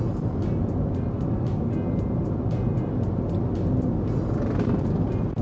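Car engine drone from a driving video game during an overtaking move on a highway-style course, a steady, loud, continuous roar that holds an even level throughout with no clear gear changes.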